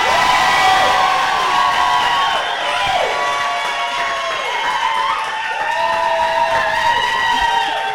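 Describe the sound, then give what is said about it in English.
A live show audience cheers and whoops loudly, with a dense crowd roar under repeated shouted whoops that sweep downward in pitch. “Thank you, guys. Thank you. Okay, one more time again, just the levels. Just kidding. You guys, please. That was so, your applause in my ears is like through the recording.”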